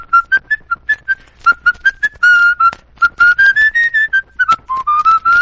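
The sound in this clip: A person whistles a tune, clear and fairly loud with no talking, in short staccato notes that give way to longer held tones as the melody rises and falls.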